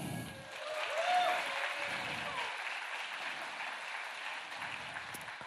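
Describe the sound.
Audience applause in an auditorium welcoming a speaker: a steady, dense wash of many hands clapping that swells around the first second and then holds evenly to the end.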